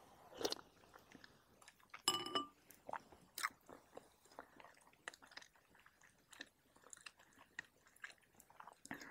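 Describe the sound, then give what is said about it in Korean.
Close-up chewing of squid as a snack at a drinking session: many soft, irregular crunching bites with wet mouth sounds, faint overall, with a few sharper bites standing out near the start. “맛있다 아 이게 맵냐 오징어?”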